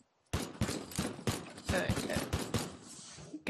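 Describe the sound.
Video game gunfire from in-game weapons, including a shotgun-style pistol, sounds as many loud, booming shots in an irregular, fairly rapid sequence.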